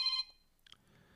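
A brief electronic telephone ring sounds during a live broadcast: a single bright, tonal burst with stacked harmonics at the very start, cutting off after a fraction of a second into faint, low background noise.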